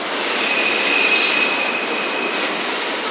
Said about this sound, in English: That sound you hear is not a squeaking ghost, that's the sound of a train passing by.